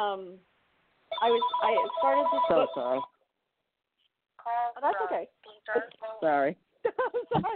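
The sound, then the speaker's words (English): A phone ringtone from a second phone the caller cannot mute rings in repeated bursts, with talking voices heard alongside. “So sorry about this. I don't know how to mute my other phone right now.”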